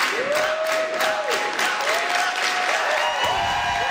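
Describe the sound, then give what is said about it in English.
Supporters chanting a candidate's name at a party's campaign launch in Montreal's Old Port. Many voices repeat a short sung-out name several times over clapping. “As spokesperson Huba Ghazal took to the mic, she was welcomed by a team full of candidates standing behind her, chanting her name, Huba.”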